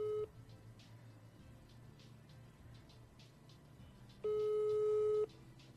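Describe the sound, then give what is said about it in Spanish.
Ringing tone of an outgoing telephone call that goes unanswered: the tail of one steady ring, a pause of about four seconds with faint background noise, then another ring of about a second. “A ver si nos contesta Leida.”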